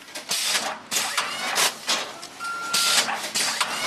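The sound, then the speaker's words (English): Conveyor belts and shrink wrap machines run in a plant nursery warehouse, bagging bulbs and roots for shipping. The machinery gives a steady mechanical clatter with rhythmic bursts and thumps, and a brief steady electronic tone partway through. “Over in the warehouse, the musty smell of peat moss hangs in the air as bulbs and roots twirl through conveyor belts and shrink wrap machines into bags to ship to customers.”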